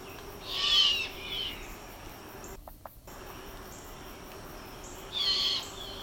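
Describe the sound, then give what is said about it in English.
Mourning dove cooing in a few soft, hollow, owl-like calls: one near the start, a brief fainter one after it, and another near the end, over a quiet steady insect-like hum. “That's not the mourning dove. This is the mourning dove. Yeah. Mm-hmm, mm-hmm. Yeah, that's the mourning dove. That last little bit was classic mourning dove.”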